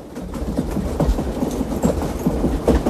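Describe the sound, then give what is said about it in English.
A moving freight train gives a steady rumble with a rhythmic, repeated clatter of wheels over the track. “Later, at the last boxcar, Almashi climbs out, hangs off the back of the train, then jumps.”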